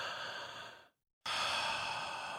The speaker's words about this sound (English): Now take that deep breath.